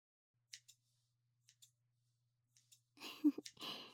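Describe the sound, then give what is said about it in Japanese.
Scissors snip through hair while trimming frizzy strands near the bangs: six quiet, crisp snips in three close pairs, then a louder, denser burst of cutting noise at the end. “ここはあまりいじりたくないので、簡単に癖っ気になったものだけをカットしちゃいます。”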